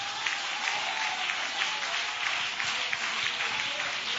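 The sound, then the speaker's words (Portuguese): Congregation clapping hands during a church service, a steady, continuous patter of many hands that holds at an even level throughout, with no voices standing out. “aleluia, oh glória, bate palmas da glória”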